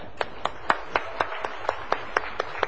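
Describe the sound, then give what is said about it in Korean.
An audience at a church service claps in unison, with eleven sharp, evenly spaced claps in a brisk, steady rhythm. “우리 최집사님 박수 한번 쳐주겠습니다.”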